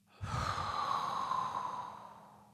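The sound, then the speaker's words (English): A single deep breath in and out, heard alone as a soft, airy hiss that swells quickly, holds, then gradually fades. “force breath out, as if you're dropping everything from your mind, and rest in the calm mind. Once more, deep breath in, expire and drop.”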